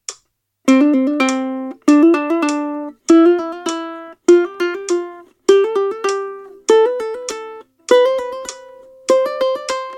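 A fast double mordent ornament at about 100 beats per minute: a steady run of quick, bright note flurries, each resolving onto a held tone, repeats about once a second with brief gaps and shifting pitch.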